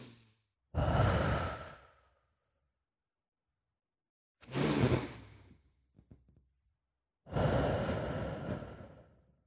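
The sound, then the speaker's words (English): Three slow, deep breaths, each a long breathy whoosh of about a second and a half, separated by quiet pauses, with a few faint mouth clicks after the second. “So time for deep breaths.”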